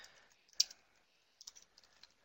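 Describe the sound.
Typing a caption on a computer keyboard: faint, scattered keystroke clicks, a sharper tap early on, then a loose run of light clicks.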